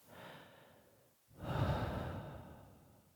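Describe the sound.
A soft breath fades into a short near-silent pause, then a fuller, longer exhale like a sigh swells and slowly tapers away, with no talk.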